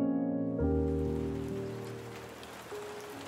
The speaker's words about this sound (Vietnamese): Cơn mưa xối xả đổ xuống khiến cho con đường trở nên tối mờ.